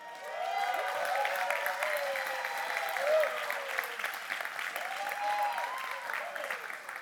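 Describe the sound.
An audience claps steadily to welcome a guest onto the stage at a Valentine's Day church event, a long, even wash of applause with some brief vocal cheers rising above it.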